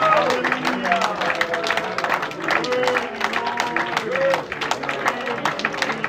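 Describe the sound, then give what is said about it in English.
A church audience clapping their hands in praise to God, dense rapid clapping that runs throughout under a speaking voice, with a brief dip near the middle. “Why don't you just go ahead and just give God a hand clap right now.”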